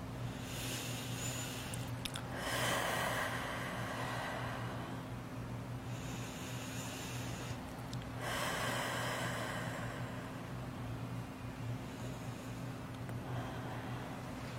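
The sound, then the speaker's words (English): Slow, deep breathing during a relaxation exercise: a few soft, drawn-out inhales and exhales come at spaced intervals. They are faint, over a steady low hum. “Close your eyes. And inhale and exhale 3 times.”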